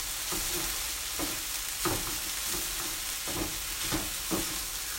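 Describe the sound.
Onions being stir-fried in a frying pan for curry, cooked until caramel brown, give off a soft, steady sizzle. Several brief scraping stirs stand out over the continuous quiet hiss.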